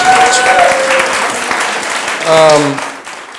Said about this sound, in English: yeah, you guys will clap now